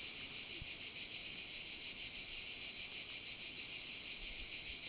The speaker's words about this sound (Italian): risenti le cicale, il vento.